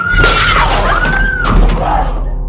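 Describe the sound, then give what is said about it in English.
An empty glass coffee carafe shatters as it is smashed over a man's head, a loud crash of breaking glass followed by scattered tinkling shards. “Kelly grabs an empty coffee carafe from the kitchen. She smashes it on Zico's head.”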